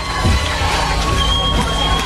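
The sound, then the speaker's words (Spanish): A standing audience in a plaza applauding and cheering a band, a continuous crowd roar with scattered shouts and high-pitched cries rising over the clapping. “Pues ahí está recibiendo también el aplauso del público, puesto en pie, pues saludando a los Star.”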